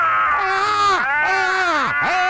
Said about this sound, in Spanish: Vamos a gritar los dos para desahogarnos por esta injusticia. ¡Gritemos!